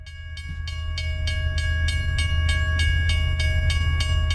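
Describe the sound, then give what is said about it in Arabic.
An old desert train runs along the railway line between Oujda and Bouarfa, with steady rhythmic wheel clatter over a deep rumble and sustained tonal whine. “خط سككي قديم عتيق وعجيب يربط بين مدينة وجدة وبوعرفة. على امتداد مئات الكيلومترات يشق هذا القطار”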